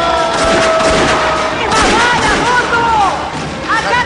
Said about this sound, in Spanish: Cuidado con los petardos.